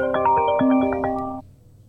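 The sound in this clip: Phone ringtone for an incoming call: a short electronic melody of bright, clean tonal notes stepping up and down, lasting just over a second before cutting off abruptly, with no talk over it.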